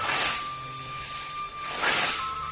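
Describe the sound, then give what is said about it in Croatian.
Scythes mow grass during traditional hand mowing. There are two sharp swishing strokes, one near the start and one near the end, over a steady background with a faint tonal hum. “Ujednačeni udarci i reski zvuk kosa s vremena na vrijeme zamijeni pjesma, opet tradiciju čast.”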